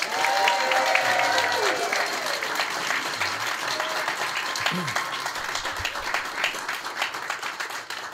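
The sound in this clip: Audience applause welcoming a planetary scientist onto the stage at a live space-science event. Full, steady clapping from a crowd is loudest at the start and gradually thins out.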